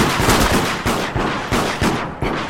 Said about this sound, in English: I don't know, getting shot at, though!